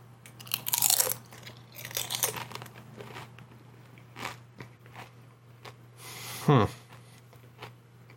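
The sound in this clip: Crunching of pumpkin and cinnamon tortilla chips being bitten and chewed: a few crisp, crackly bursts of varying loudness come and go over a low, steady hum.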